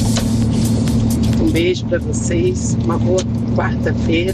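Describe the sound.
Steady low engine and road drone from inside a car driving at night, continuous and even throughout, with a voice briefly speaking over it.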